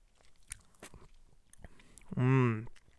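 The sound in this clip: Soft chewing and mouth clicks as someone tastes a spicy, farmy-smelling canned food likened to squash and pumpkin. A few scattered bites are followed by a short voiced hum near the end.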